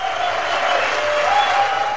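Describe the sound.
Concert audience applauding a band during a 2013 tour: a dense, continuous clatter of many hands that stays loud and steady from start to finish.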